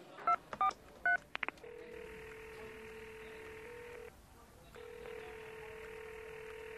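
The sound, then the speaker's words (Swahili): A telephone number is dialed to place a call: a quick run of a few bright keypad beeps, then a long steady ringing tone that stops briefly and resumes, with a low hiss underneath. “Hebu hebu subiri nimpigie simu.”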